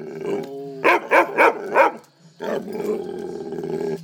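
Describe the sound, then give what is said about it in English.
A dog barks four times in quick, loud succession after a low tonal growl, then pushes out a long, sustained rough growling howl that carries to the end. “Vicious dog. Vicious dog. Go find it! Go find it!”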